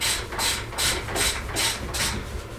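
Rhythmic ratcheting rasps as a fitting is loosened on the left fork leg of a motorcycle's suspension damper, a steady run of evenly spaced bright bursts over a low hum, with no voices.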